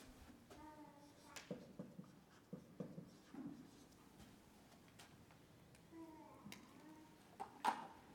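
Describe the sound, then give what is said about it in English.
Faint scratchy strokes of writing on a board, a quiet series of irregular short scrapes and taps, with soft intermittent speech. “I'm just going to write the first part of the title on the board, and then I'll finish it later.”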